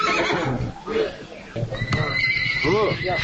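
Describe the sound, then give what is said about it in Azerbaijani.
A horse whinnies at a livestock market. Its neighs rise above a steady bed of noise and people talking nearby. “Bazarda heyvanlar satılan yerdə at satanlar da var.”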